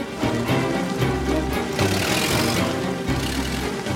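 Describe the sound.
A car engine runs as the vehicle moves off, a steady low rumble with a mid-range hum that holds at an even, fairly loud level throughout.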